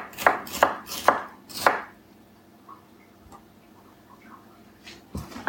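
Knife slicing vegetables for a food processor: four sharp, crisp chopping strokes in quick succession, then a quiet stretch with only faint small knocks.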